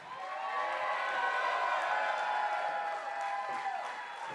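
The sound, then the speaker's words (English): An audience cheers and applauds as performers come out. The crowd din is steady and fairly faint, with scattered shouts over a continuous wash of clapping. “Welcome as they come out. Let's give them a round. Come on. Come on out, guys. There they are.”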